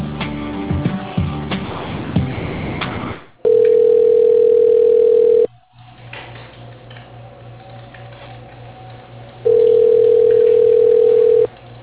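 Telephone line tones play as a call is transferred to voicemail: two long, steady, even-pitched tones of about two seconds each, separated by a stretch of quieter line noise with a low hum, after a busier patch of line sound.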